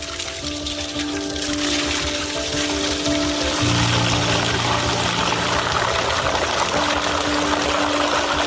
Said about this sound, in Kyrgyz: Азырга чаканы толтуруп алдым.